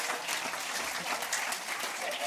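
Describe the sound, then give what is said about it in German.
Audience applause during a party egg-hunt game, praising someone's painting work, a thick, lively clapping patter that stays fairly constant, with voices mixed in beneath the hands. “Gebt ihr mal einen fetten Applaus hier für die Malerarbeit.”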